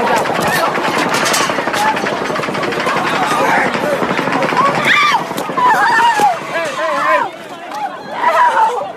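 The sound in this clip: Video game gunfire rattles in rapid bursts, dense and loud, mixed with voices and chatter running throughout.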